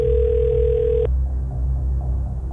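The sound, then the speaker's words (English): A telephone tone after dialing a call: a steady, single-pitched tone holds for about a second and then cuts off, leaving a low hum. “I've hit dial.”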